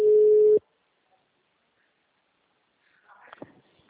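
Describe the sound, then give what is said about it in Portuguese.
A ringback tone on an outgoing telephone call: one steady low beep lasting about half a second, then a long silence, with a few faint sounds near the end. “atende, mulher, em nome de Jesus.”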